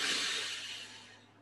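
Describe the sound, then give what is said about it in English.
A very deep inhaled breath: a long, airy hiss that is strongest at the start and gradually fades over about a second and a half, with no talk. “Now inhale very, very deeply, then retain the breath below the navel.”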